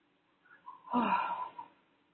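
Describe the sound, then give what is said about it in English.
A deep exhale through the mouth after a long held breath in a guided breathing exercise, a breathy rush of air that swells and fades over about a second, with softer breaths just before it. “Hold till you cannot hold and then exhale through the mouth.”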